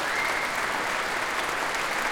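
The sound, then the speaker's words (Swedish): Audience applause after an orchestral piece, an extra round for the percussionists: dense, steady clapping that holds at an even, fairly loud level throughout, with no voices standing out. “Emilia Hoving, som ger slagverkarna en extra rundas applåder efter det här stycket”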